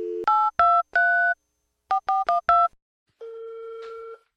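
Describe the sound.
Keypad tones sound as a telephone number is dialed: seven clear dual-tone beeps in a group of three, then a quicker group of four. A longer, steady, lower tone follows after a short pause.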